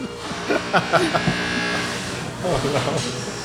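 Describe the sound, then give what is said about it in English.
A carrot shredder grinds carrots with a motorized buzzing whir that runs steadily under people talking. “So she's actually grinding something up. It's carrots. She's using like a carrot shredder.”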